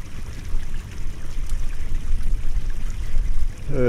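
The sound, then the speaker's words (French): Glacial meltwater from the melting Okjökull glacier flows in a small stream as a steady, even wash of rushing, trickling water, constant throughout. “Voilà, un petit ruisseau surgit. C'est de l'eau de glacier. Ce qui reste du glacier Oukjokul qui est en train de fondre et de dévaler la pente.”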